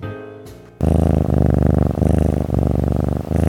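A cat purrs loudly and steadily, a low rumbling that cycles rhythmically with its breathing. The purr begins after a brief, quieter opening.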